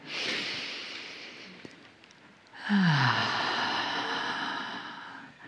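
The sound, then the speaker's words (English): A deep breath drawn in through the nose as a soft, airy hiss during a guided breathing exercise, then a short pause and a longer, slightly louder breathy exhale through the mouth. “So take a nice full breath in through your nose, out through your mouth. And again.”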